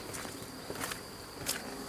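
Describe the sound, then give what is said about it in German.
Footsteps walking down outdoor stairs, three slow, soft, evenly spaced steps, with a steady insect chirring underneath. “Ich würde mich jetzt aber einfach mal trauen, diese Treppe herunter zu schreiten.”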